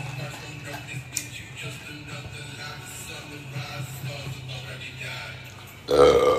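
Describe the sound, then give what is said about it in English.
A person belches: one loud, rough burp bursts out near the end after several seconds of low, steady background noise. “Excuse me. Here come the belching.”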